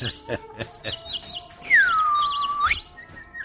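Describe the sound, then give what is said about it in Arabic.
A small bird chirps: a few short, high chirps, then a longer whistled note that slides down in pitch, holds, and flicks back up at the end, set against a quiet background. “محلاه العصفور محلاه”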